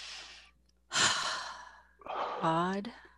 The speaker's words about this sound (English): So taking a deep breath now.